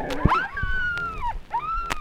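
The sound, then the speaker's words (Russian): Dog whining while waiting for food: drawn-out, high, wavering whines that sag in pitch, with a short sharper yelp or two in between. No talk. “Этот хищник – собака обыкновенная. Сигнал – ожидание пищи.”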